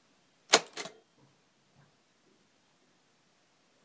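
Typing on a keyboard: two sharp key clicks in quick succession, followed by a few very faint taps and near silence.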